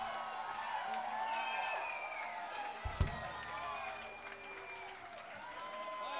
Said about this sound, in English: give yourselves a hand, by God.